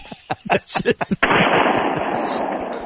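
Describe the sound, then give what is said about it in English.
Rifle gunshots crack out after a few seconds of talk, a sudden loud blast that carries on as a dense, rumbling roar before slowly tapering off. “who are you shooting with that rifle?”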